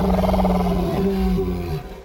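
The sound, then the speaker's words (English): A deep, rough roar from a creature at night, striking at a small boat on the water. The roar is loud and thick with layered harmonics, holds for nearly two seconds, then tapers off. “Another roar punctuated the night,”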